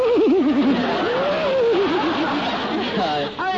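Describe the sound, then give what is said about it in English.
A man laughs and works a voice imitation of a horse whinny into it, a quavering, warbling pitch that shakes rapidly up and down before settling into looser chuckling. “He gets a little horse whinny into the laugh.”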